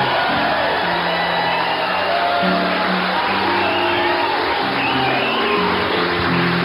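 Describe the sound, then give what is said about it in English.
A live evening audience in St. Paul cheers loudly, with whoops and shouts rising from a continuous crowd roar of many voices. “I'll tell you, folks, you may applaud if you like. We've got a terrific, really intelligent, awfully good live audience with us this evening in St. Paul.”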